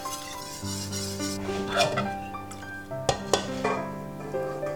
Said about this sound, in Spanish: y lo pongo al baño María, porque yo prefiero darles un golpe de calor a las claras. Lo iré removiendo y lo sacaré cuando esté el azúcar completamente disuelto.